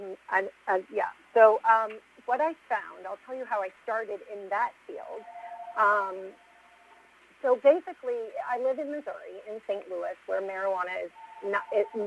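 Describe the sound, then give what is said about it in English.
A phone rings in the background while a person keeps talking, with two steady, mid-pitched electronic ring tones, one near the middle and one at the end, partly under the voice. “Sorry for the phone ringing in the background.”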